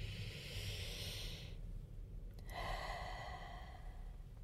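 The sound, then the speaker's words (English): A slow, even, deep breath is drawn in and then let out, soft and airy, with a brief pause between the inhale and the long exhale. “take one last slow, even, deep breath”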